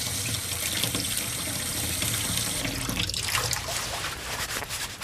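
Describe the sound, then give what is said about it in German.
Tap water runs steadily into a sink while a leaf is rinsed under it, giving a continuous hissing, splashing flow whose texture shifts slightly midway. No one speaks. “Moment, ich wasche mal eins ab und teste.”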